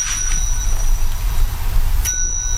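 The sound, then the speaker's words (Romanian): A hand bell shaken by a leper walking in the street rings in a few bright, sharp strikes with a lingering metallic tone over a steady low rumble. “clopoțelul. Așa zice legea. Să știe lumea că trece un lepros”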